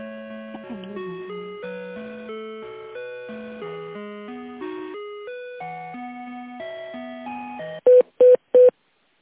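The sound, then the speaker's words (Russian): Telephone tones while a call is being transferred: a melodic run of electronic notes like hold music, then three short, identical beeps in quick succession. “Соединяюсь, секундочку, с Анжелой Владимировной.”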